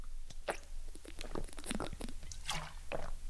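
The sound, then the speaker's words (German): Someone takes a sip of a drink on a hot day, with a run of wet mouth clicks and swallowing sounds repeating quickly and fairly loud. “ich muss mal einen Schluck trinken, Leute”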